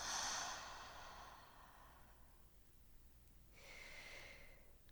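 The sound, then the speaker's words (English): A deep inhale and exhale during a guided breathing exercise: a soft, breathy rush that is strongest at the start and fades over about two seconds, then a second, gentler breath swells and fades near the end, with no talking. “Let's take a big inhale together. Hold at the top and inhale a little more. Take a big exhale.”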